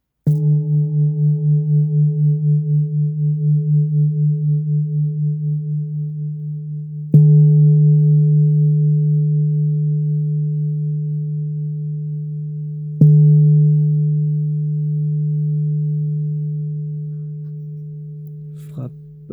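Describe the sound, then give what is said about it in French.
An antique 646-gram singing bowl, tuned to a slightly sharp D, is struck three times with a mallet. Each strike rings out as a pure, sustained tone that slowly fades, and the first carries a gentle pulsing wobble. “646 grammes pour ce joli bol antique qui sonne en ré un tout petit peu aigu. On l'écoute, frappe maïoche.”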